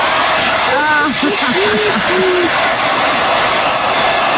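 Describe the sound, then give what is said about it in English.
A hair dryer blows underwear dry with a constant, loud whooshing roar, and a voice sounds over the steady airflow. “What? I can't hear you. I'm blow drying.”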